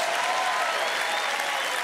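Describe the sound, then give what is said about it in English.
A church audience claps during a sermon, producing a thick, continuous wash of applause at a steady level from start to finish. “You're not going to clap more for your blessing than you are for Jesus.”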